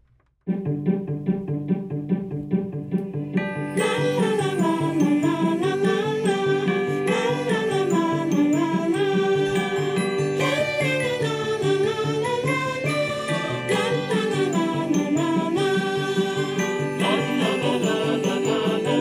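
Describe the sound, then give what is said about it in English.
Instrumental theme music opens with a sparse, repeating rhythmic pattern. After a few seconds, a fuller arrangement joins with a bright, bouncing melodic line, and it plays on steadily without talk. “Here's some theme music.”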